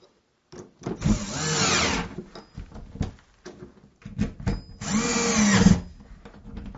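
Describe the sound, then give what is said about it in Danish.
Whirring of a screwdriver tightening the two screws behind the cover of a loose door handle. Two strong bursts are separated by quieter rattles and clicks. “Herinde bagved, der sidder der to skruer, som skal spændes, for at dørhåndtaget det sidder fast.”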